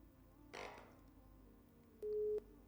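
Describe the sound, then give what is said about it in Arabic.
After a phone call is cut off, a single short, steady beep of the busy tone sounds faintly and alone, following a brief soft burst of noise. “فصلت المكالمة.”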